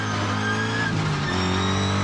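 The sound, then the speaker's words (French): A car engine roars as the driver accelerates and the car breaks into a drift, a loud, unbroken drone that holds its pitch throughout, with no voices. “hop, j'accélère, la caisse part en drift direct.”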